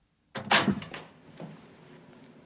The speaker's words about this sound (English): He approaches a door and finds it locked. He knocks.